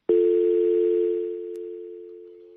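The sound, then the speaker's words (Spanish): A telephone dial tone sounds after a call is cut off. The steady single-pitch tone begins abruptly, carries on unbroken with one faint click partway through, and fades slowly toward the end. “Bueno, pues sí se cayó, aparentemente le tumbaron la llamada desde Cuba.”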